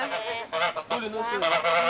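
Geese honking in several short, nasal, harmonic calls that come in quick, uneven succession, fairly loud and clear.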